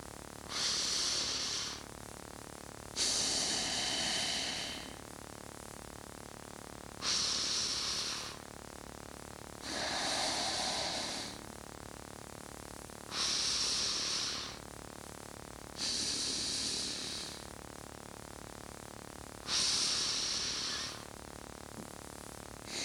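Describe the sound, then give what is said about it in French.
Audible breaths drawn in through the nose: seven slow, hissing inhalations in an even rhythm, each about a second and a half long, with quiet gaps between them and no talking. “sentant et en conscientisant le passage de l'air à l'extrémité du nez. On peut donc faire un peu de bruit pendant cette inspiration, histoire de s'entraîner.”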